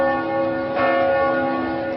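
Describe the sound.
A church bell rings at the great Reformed church in Debrecen, calling synod members to a ceremonial procession. Steady, resonant overlapping tones ring on with a fresh strike near the middle, and no voices are heard.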